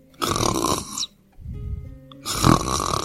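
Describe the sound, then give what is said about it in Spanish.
A little sheep snoring sweetly in a storybook scene: three rough snoring breaths, two loud raspy ones around a softer, lower one in between, with no talk. “La ovejita roncaba dulcemente bajo su oreja. Un ronquido tras otro.”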